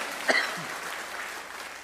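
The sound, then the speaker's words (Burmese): Congregation clapping in praise at a church service: a brief sharper burst of claps rises early, then settles into an even wash of applause that holds steady to the end. “ဟာလေလုယာလက်ခုပ်တီးလက်အဘဘုရားကိုချီးမွမ်းရအောင်အာမင်။”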